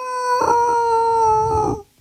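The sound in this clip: A single wolf howl: one sustained, tonal cry with rich harmonics, held at a fairly steady pitch for about a second and a half before cutting off, heard alone with no talk.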